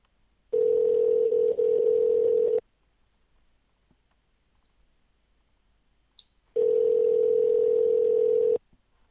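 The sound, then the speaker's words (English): A telephone ringing in two long, steady electronic ring tones of about two seconds each, separated by roughly four seconds of near silence with a faint click in the gap. “It's your phone, buddy boy.”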